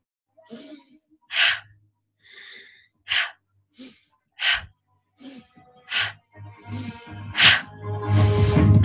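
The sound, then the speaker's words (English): Forceful, sharp breaths in through the nose and out during a fierce breathing exercise. Short bursts come one after another, separated by brief pauses, and run closer together toward the end. “This is the mama bear breath. Who needs the love? So we breathe in the nose and exhale out.”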